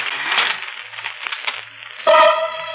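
An envelope being torn open: a dry crinkling, ripping paper sound that rustles steadily and then turns into a sharper, louder tear near the end.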